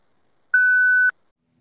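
A voicemail tone beep: one steady, clean electronic tone lasting about half a second, loud and alone against silence.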